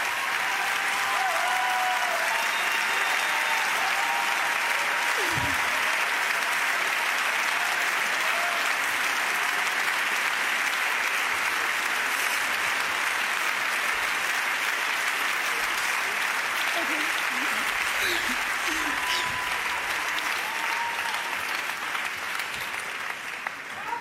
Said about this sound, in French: Je vous propose d'écouter la standing ovation pour Julia Ducournau et les premiers mots de la réalisatrice.